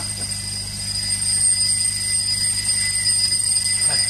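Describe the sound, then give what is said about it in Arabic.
An alarm clock rings in a hut, a shrill, high electronic ringing held steady and unbroken throughout, with a low hum underneath. “شو هذا تليفون بس مش تليفون هذا منبه بالعرزال عند درويش فوق”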